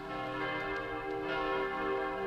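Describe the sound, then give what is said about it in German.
Church bells ring for a wedding, their sustained, overlapping metallic tones layered with a few fresh strikes, steady and fairly faint throughout. “Die Kirchenglocken läuteten.”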